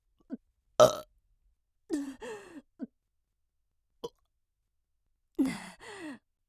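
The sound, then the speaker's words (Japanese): Burping after a meal: several short, throaty burps, including one loud burst near the start, mixed with breathy sighs and separated by silence. “やだ、ゲップ出ちゃった。”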